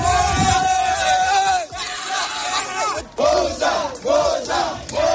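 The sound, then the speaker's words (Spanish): A crowd of migrants shouts and yells while attempting to cross the border fence at Melilla: a sustained, loud, tense roar of many voices, broken by two brief dips before surging again. “Este sonido es también de la frontera, es el intento de entrada de migrantes en la valla de Melilla”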